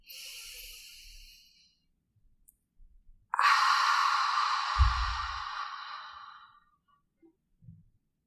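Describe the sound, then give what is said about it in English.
A deep breath exhaled through the mouth during a guided breathing exercise, like fogging a mirror: a long, loud, breathy hiss that slowly fades, preceded by a softer breath. “through the nose to fill up the lungs and exhale through the mouth, making a sound like fogging a mirror. Exhale completely.”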